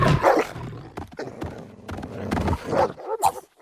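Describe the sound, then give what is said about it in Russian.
Dogs fighting over a bone, with snarls, growls and sharp yelping barks coming in rapid overlapping bursts that are loud and rough throughout, easing briefly near the end. “Собаки, схватив косточку, дерутся между собой.”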